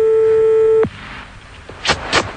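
A steady telephone line tone holds for under a second and cuts off, followed by a short pause and two brief, bright bursts of dialing or line signal while a number is being called.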